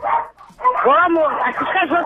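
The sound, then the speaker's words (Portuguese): Dogs bark and yip in a quick run of high, arching yelps and whines, closely mixed with people talking. “Esses cachorros estão aqui, né?”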